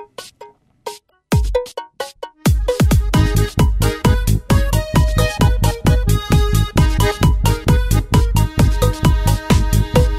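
An electronic techno track blended with traditional Mediterranean sounds opens with a sparse, stuttering intro. It then settles into a loud, steady, heavy kick-driven beat layered with bright tonal parts that repeat rhythmically to the end.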